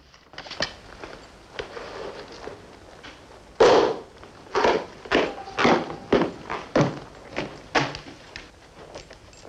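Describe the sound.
Footsteps of a soldier in a beret marching to the witness stand in a courtroom: many sharp, evenly spaced thuds in a steady marching rhythm, following a few scattered knocks.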